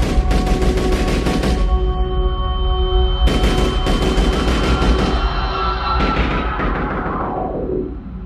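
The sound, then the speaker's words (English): Gunshots ring out in a courtyard crowded with pilgrims just after dawn prayer, in loud, rapid bursts of fire separated by short gaps over a steady droning tone, and the sound tapers off at the end. “Just as the prayer ended, shots rang out.”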